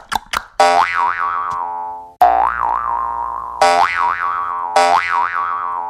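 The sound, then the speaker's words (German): Cartoon-style boing sound effects for hopping, played on a jaw harp: a few quick plucks, then four loud twanging boings, each with a wobbling, bouncing pitch that fades before the next. “Ich hüpf dann mal durchs Studio und du machst den passenden Sound dazu, okay?”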